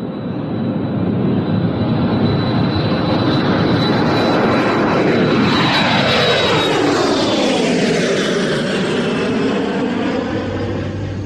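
A jumbo jet airliner in flight gives a loud, steady engine roar that is broad and unbroken, with a thin high whine over it in the first half.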